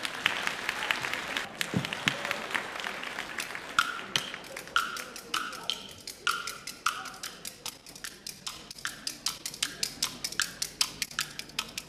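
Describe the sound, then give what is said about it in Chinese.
Audience applause at a Beijing variety stage show, greeting a young performer of traditional kuaiban clapper-talk, starts as a dense, loud wash. It then thins into a steady run of many sharp, rhythmic clacks that continue to the end. “为您带来传统节目花唱绕口令，咱们掌声有请”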